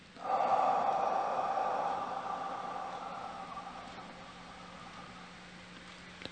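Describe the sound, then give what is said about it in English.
One long, deep inhalation during a guided relaxation exercise, an airy rush that starts strong and slowly tapers off over several seconds, with no voices. “As we do this, let's start by taking a deep breath in one, two,”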